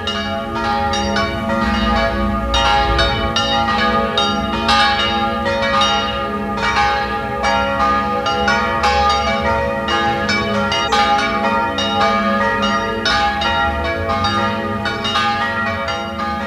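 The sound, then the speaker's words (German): Church bells ring out at noon from a parish and pilgrimage church in Vienna's Kaiserebersdorf district, several bells pealing loudly together in a continuous overlapping clang that does not let up for the whole stretch, with no voices. “Es ist 12 Uhr. Sie hören die Glocken der Pfarr- und Wallfahrtskirche Kaiser Ebersdorf in Wien 11.”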